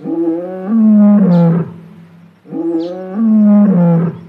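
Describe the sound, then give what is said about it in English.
A lion roars outside a house: two long, loud, growling roars of about two seconds each, separated by a short pause, with no voices. “As Hare is settling into her new house, she hears the door rattle, followed by a roar from outside the house”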